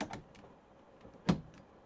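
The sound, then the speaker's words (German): Two buckles on the side of a suitcase being opened: a few faint, sharp clicks and snaps, with one clearly louder click standing out near the end. “An der Seite sind zwei Schnallen, die er öffnet.”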